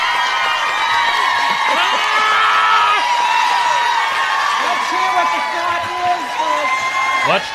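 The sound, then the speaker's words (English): Studio audience on Oprah's talk show cheering, whooping and shouting in a loud, continuous crowd din, with many excited voices overlapping throughout. “Can't hear you over your stupid audience, Oprah.”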